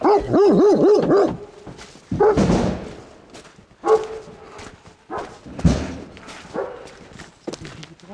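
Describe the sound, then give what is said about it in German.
A dog barks and rampages inside a car. It opens with a fast run of high yips and whines, then gives many loud, irregular barks in uneven bursts. “Man muss halt die Hunde mithaben. Also wenn der schon im Auto so randaliert, kann ich mir vorstellen, zu Hause macht er auch alles kaputt”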